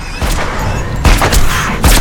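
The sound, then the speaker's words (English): Repeated gunshots as a woman keeps firing a gun while advancing on a possessed woman in a horror scene: several heavy, booming blasts spaced irregularly over dense, loud background noise. “She continues firing as she stalks toward Hannah.”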